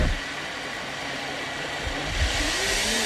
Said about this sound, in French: On met tous les ingrédients dedans, on mixe, on met un peu de glaçon, un peu de sucre et un peu d'eau,